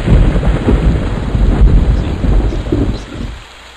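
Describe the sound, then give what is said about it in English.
Loud thunder rolls through a rainy stormy zone in a video game. A dense, continuous rumble mixes with hissing rain, then drops away to a quieter hiss at the end. “The thunder's really loud. This is one of those zones.”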